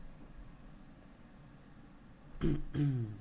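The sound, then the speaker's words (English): Someone clears their throat during a mock room-tone recording: two short, voiced rasps close together, breaking a long stretch of quiet, steady hiss. “You're like a, someone clearing their throat.”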